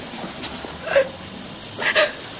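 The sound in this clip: A woman bursting into tears in a 1998 drama film, with short, gasping sobs in a few bursts. The two strongest hiccuping cries come about a second apart.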